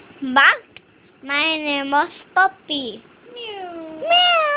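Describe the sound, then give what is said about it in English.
A child's voice imitates a grandmother's cat meowing, producing several high, drawn-out tonal mews with gliding pitch, separated by short pauses and varying in length. “Mewed my grandmother's cat.”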